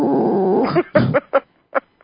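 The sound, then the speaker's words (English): A voice imitates a dog howling at the end of a song: a sustained, wavering, throaty cry followed by several short, yelping bursts separated by brief silences. “at the end of the song, the dog goes, "Woo, woo."”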